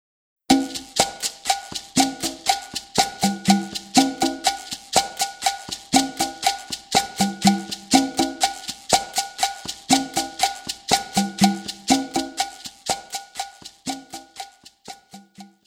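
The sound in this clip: Conga tumbao for cha-cha-cha joined by cowbell, güiro and maracas, forming a dense, steady groove of ringing drum tones under bright metallic strikes and continuous scraping and shaking that repeats evenly, then thins out at the end.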